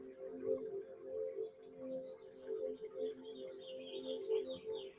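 Birds call outdoors, with faint, low cooing phrases repeating throughout and higher chirps joining in during the second half.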